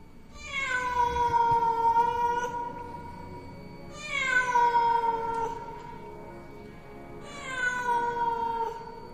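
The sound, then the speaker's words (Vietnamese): A feral cat yowls mournfully in three drawn-out, wavering cries, each starting high and settling lower, with short pauses between them. “Mọi người cứ cắm cúi động quan, ở xung quanh vẫn văng vẳng tiếng con mèo nó kêu.”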